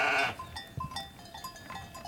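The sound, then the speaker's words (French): A flock of lambs bleating on a farm: several thin, wavering bleats, fairly faint against a steady background hiss, after a short noisy burst at the start. “il n'est pas avec le troupeau de brebis ici, il est avec le troupeau des agnels.”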